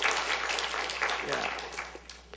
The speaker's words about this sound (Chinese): 我们是不是给我们的父亲们一个热烈掌声来祝福他们一下